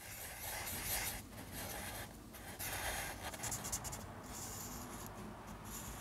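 Scratchy pencil strokes on paper as a sketch is drawn of a skeleton found on a beach, a steady, continuous rasping with small surges in loudness and no voices.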